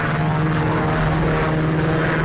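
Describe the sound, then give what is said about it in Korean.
A continuous engine drone from fighter planes flying over a valley. The roar stays loud and unbroken throughout, with a dense, rumbling low hum that does not fade. “드디어 전투기들은 골짜기 상공으로 날아왔다. 비행기들은 골짜기 상공을 한 바퀴도 채 돌지 않고 고도를”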